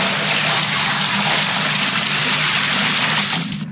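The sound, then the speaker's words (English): A bucket full of liquid is emptied over people's heads. It makes a loud, continuous gushing splash that holds steady for several seconds, then cuts off and fades near the end. “You just emptied a bucket full of liquid on our heads.”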